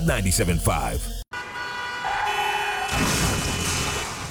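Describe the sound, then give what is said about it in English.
A car horn blares in a radio ad's truck crash sound effect, steady and tonal with layered harmonics, sounding for about three seconds after a brief voice and a short silence. “Oh, dang. Man, this truck just hit me.”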